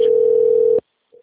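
An outgoing phone call's ringback tone sounds once as a steady mid-pitched beep lasting under a second. Silence follows, then a faint brief blip.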